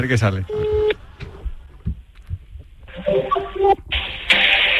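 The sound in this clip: A telephone call placed from a Spanish sports radio show, dialled and ringing on the line: several bursts of band-limited tones with gaps between them, including a stepped sequence of pitches and a bright, steady final tone.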